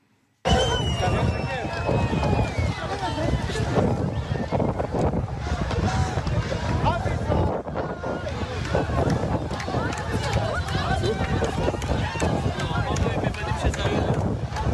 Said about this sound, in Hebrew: את צהלות השמחה בחוף, כשהם שומעים שמצאו את הילד, זה הקבוצה שמחפשת אותו